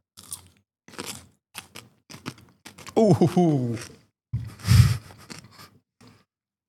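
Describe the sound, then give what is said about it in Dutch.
Crisp crunches and chewing as a very small, spicy red pepper is bitten and eaten: several short crunchy snaps, then a brief voiced vocal sound and a louder burst of chewing. “Ik ga een hele kleine, pittige rode peper pakken. Nou, ik eet hier nog even mee.”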